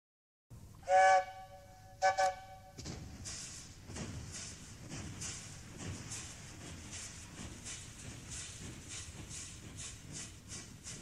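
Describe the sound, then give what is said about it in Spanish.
A little train locomotive gives two short, bright whistle blasts, then settles into an even, rhythmic chugging hiss that runs steadily to the end. “¿Por qué no viajar en el trenecito cuya locomotora arroja humo de algodón?”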